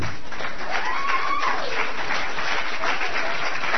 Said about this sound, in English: So, Folks, would you please put your hands together and help me in welcoming Mr. John Calvin.